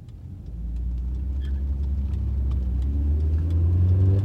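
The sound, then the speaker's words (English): A car drives through a rocky desert landscape. Its engine makes a steady low rumble that slowly grows louder and fuller over a few seconds, with no voices. “As Akeem drove us through the desert”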